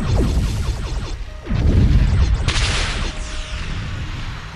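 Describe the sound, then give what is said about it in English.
Sci-fi spaceship weapons fire during a space battle as enemy ships return fire: loud, dense blasts, booms and whooshing sweeps layered without a break, with no talk. “Enemy ships coming through now. All about. They're returning fire.”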